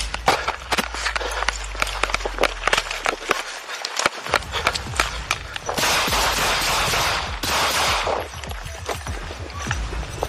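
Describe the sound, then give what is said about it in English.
Gunfire in a police shooting standoff after a foot pursuit, with an officer firing back at an armed suspect: many sharp, rapid cracks in dense bursts over steady noise. “The foot pursuit turns into a shooting standoff, alerting the neighbors in the area into shock. Carlos Jr. points the gun to the officer, and the officer has no choice but to retaliate and fire back in self-defense.”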